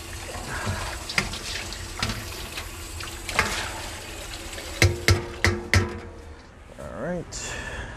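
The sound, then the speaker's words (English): Water runs from a tap as a bowl is rinsed out in a deli kitchen, a steady splashing stream broken by a few sharp clatters of the bowl near the end. “Get a new bowl here. Rinse that out a little bit.”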